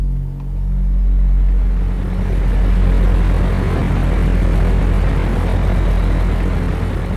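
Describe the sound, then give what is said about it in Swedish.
Steady, loud, low droning engine rumble from a small transport plane flying at high altitude over the Finnish border in 1943, unbroken throughout with no voices. “Planet flyger på hög höjd.”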